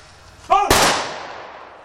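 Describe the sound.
A military honorary rifle salvo: a shouted command comes just before a single loud, sharp crack from the volley, which rings out and slowly decays.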